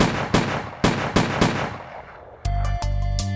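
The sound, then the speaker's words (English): Revolver gunshots ring out as several loud, sharp reports in quick, uneven succession, each with a short ringing decay, before a sustained low musical drone takes over. “She raised the revolver and shot him 6 times.”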